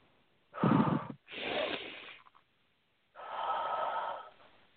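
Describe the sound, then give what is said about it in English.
Slow, deep human breathing in a guided relaxation exercise: three long breathy rushes of air, each lasting about a second, with a pause before the last. No talk is heard. “Now take a nice deep breath.”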